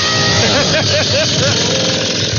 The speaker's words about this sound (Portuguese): Ó, a motosserra. Ó ele, ó. A motosserra.